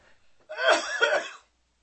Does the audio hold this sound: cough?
yes